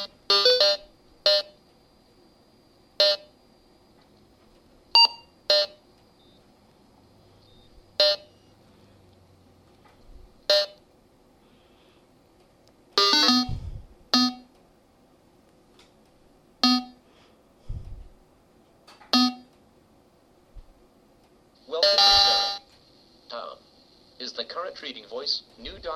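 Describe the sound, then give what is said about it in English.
A device beeps through its boot-up process: many short, bright electronic beeps at irregular intervals against near silence, ending with a longer, more complex burst of tones. “let the beeps repeat a couple of times so that you'll get the idea of what's going on, and then we'll move on to the next sound in the boot up process”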